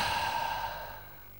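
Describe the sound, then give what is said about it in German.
A deep breath let out as a single long, airy sigh that starts fairly strong and fades away, heard alone without speech. “Wie viele Züge habe ich getan? 3 volle Atemzüge”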